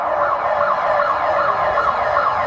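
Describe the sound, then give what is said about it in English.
Earthquake warning sirens in western Colombia wail with a loud, continuous, wavering tone that rises and falls in steady cycles over a constant background roar. “In fact, this is the sound of the warning sirens.”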